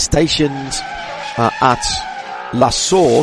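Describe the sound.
Race cars roar through TV highlights of safety-car restarts at the Spa 24 Hours, a steady engine drone with a hint of tire squeal. It sits under continuous talk from a voice in the foreground.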